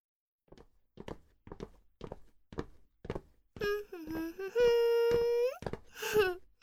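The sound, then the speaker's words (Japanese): Footsteps walk along a long corridor in a regular series of light, evenly spaced steps. A loud, wavering, whining tone then takes over and stays prominent to the end. “長い通路を歩くことに。”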